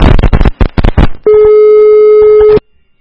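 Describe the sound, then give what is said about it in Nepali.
A telephone busy tone after a call disconnects: a loud, steady electronic tone holds for just over a second and then cuts off abruptly, preceded by a few choppy bursts of sound. “अलिकति प्राविधिक समस्याले गर्दाखेरि उहाँको phone चाहिँ काटिएको छ”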